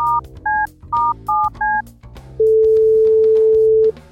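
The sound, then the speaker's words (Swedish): Touch-tone dialing comes first as five short two-note beeps in an uneven rhythm. After a short pause, one long, steady ringback tone sounds while a phone call is placed. “Jag måste ringa Brutti”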